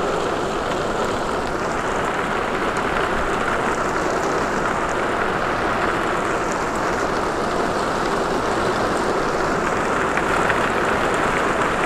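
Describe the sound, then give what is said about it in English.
Steady rain falls outdoors as a dense, even hiss that stays loud and constant from start to finish, with no distinct breaks. “Thank you, rain and thunder.”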